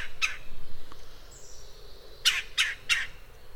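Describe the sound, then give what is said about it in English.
Red-bellied woodpecker calls from a bird found among trees in towns, rural areas and timberland: one harsh, rolling squawk, a pause, then three quick loud calls in a row over a soft background hiss. “In town, anywhere you have trees of size, they'll be red-bellied woodpeckers.”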